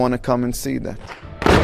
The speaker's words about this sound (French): c'est un groupe de Chinois qui tire au fusil à pompe le clou du spectacle sous les yeux de leur guide Shubo.